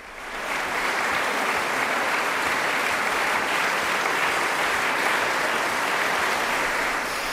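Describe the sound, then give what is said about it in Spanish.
An audience applauds a young, acclaimed duo after a Schubert ballad concert at the Schubertiade in Schwarzenberg's Angelika Kauffmann hall. Dense, steady clapping swells within the first half second, then holds evenly to the end. “Estamos escuchando las ovaciones del público a este dúo que, pese a su juventud, es uno de los más aclamados del momento”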